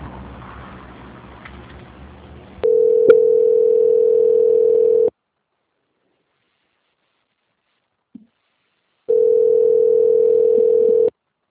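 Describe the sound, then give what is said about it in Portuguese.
Steady telephone line tone while a call is being transferred: two long, even bursts of a single pitch, separated by silence with one short blip, after a stretch of faint line hiss. “Eu vou transferir a ligação do senhor para a auditoria, tá? Aguarda um momentinho na linha, tá bom?”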